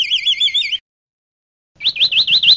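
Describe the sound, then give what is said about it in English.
Vireo song in two short phrases of high, rapidly warbling whistles, each with a pulsing, wavering rhythm, separated by about a second of silence. “here's the song of a vireo, which is apparently a kind of bird.”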